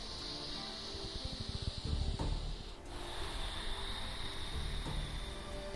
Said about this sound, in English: Two more breaths. Final inhale and exhale.